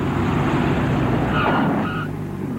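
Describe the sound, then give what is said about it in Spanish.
Steady roar of a twin-engine plane landing at a small airport, a broad, loud engine drone that holds evenly and eases slightly toward the end, with no voices. “El bimotor aterriza en un pequeño aeropuerto.”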